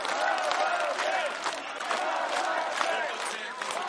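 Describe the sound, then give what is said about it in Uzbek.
A crowd of Ukrainians gathered in front of the parliament cheers and applauds during a presidential inauguration, producing a steady, dense roar of voices and clapping without a break. “Ayniqsa prezidentning parlamentni tarqatish haqidagi qarori alohida olqishlarga sazovor ko'rildi.”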